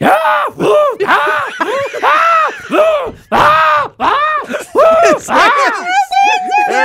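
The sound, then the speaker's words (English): A human voice imitates zombie groans from a zombie video game. It makes many loud, guttural, warbling moans in a rapid string of short bursts, ending on a higher, wavering drawn-out tone. “So the Call of Duty Zombies sound like this.”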